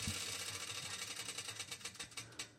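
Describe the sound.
A prize wheel spins with a rapid run of ratcheting clicks, ticks spreading out as it slows toward a stop, moderately loud and with no voices over it.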